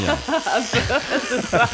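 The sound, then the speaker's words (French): An electric toothbrush hums while someone brushes their teeth, its motor buzz wavering in pitch with many quick, rhythmic strokes. “la première chose qu'elle fait, elle se brosse les dents avec une brosse électrique.”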